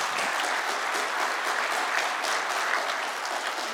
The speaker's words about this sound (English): If you love Jesus, let me hear your hands this morning.